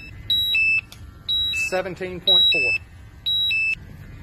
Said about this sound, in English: You can hear the alarm going off. That means that there is a hazardous atmosphere.